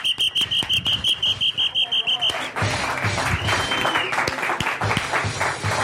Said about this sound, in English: Welcome to CSC Philadelphia, home of comedy sports and the Tony Bruno Show live as the crowd goes wild.